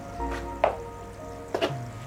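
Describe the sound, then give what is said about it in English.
A street lamp gives off a faint, steady electric buzz, broken by a few soft, dull thumps of a moth hitting the light. The thumps come in two close bursts about a second apart. “The buzz of a street lamp. Then the thump of a moth battering itself to death against the light.”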